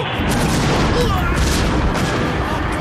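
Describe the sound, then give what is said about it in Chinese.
Artillery cannon fire in a radio drama battle scene forms a dense, loud, continuous roar of overlapping booms and blasts that never lets up. “不好，鬼子有大炮了，王明昌小心。”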